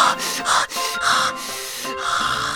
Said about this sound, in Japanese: いや、深呼吸をちょっと。